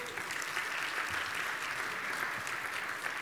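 A church audience claps steadily to welcome a new associate pastor. The dense, even applause holds at a constant level for the whole stretch.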